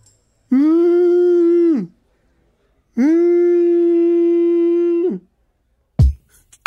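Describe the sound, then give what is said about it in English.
A person's voice imitates a whale call with two long, steady, droning tones. Each tone is fairly loud and ends with a slight drop in pitch, and a short noisy burst follows the second. “Because, you know, that was my whale sound.”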